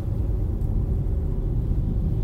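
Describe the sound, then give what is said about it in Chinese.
A steady low rumble fills the interior of a moving car and holds an even, unbroken level throughout with no voices. “哦，对，我现在又是开车在录音，但我是手持，不是手持听筒，就是用车内的一些设备。”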